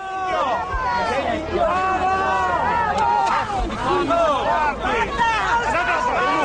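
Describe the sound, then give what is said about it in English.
A chaotic street crowd during an attack on the Italian prime minister, struck in the face with a replica cathedral while campaigning in the streets of Milan. Dense, loud babble of many overlapping voices continues throughout, with shouts rising out of the hubbub. “Here's the sound of that attack on the Italian prime minister, struck in the face with a replica cathedral while sort of campaigning in the streets in Milan”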